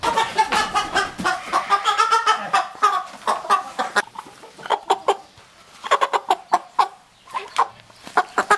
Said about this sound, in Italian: le galline